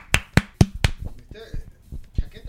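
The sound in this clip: Four sharp hand claps land in a quick, even rhythm at the start, followed by people talking.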